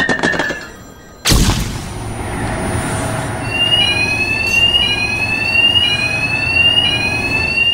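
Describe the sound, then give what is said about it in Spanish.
A homemade pipe grenade explodes in a school hallway with one sudden, loud blast. Ringing, high alarm-like tones follow over a continuous rumbling wash. “Dylan Clevon sacó una granada de tubo fabricada en su casa y la arrojó al fondo del pasillo.”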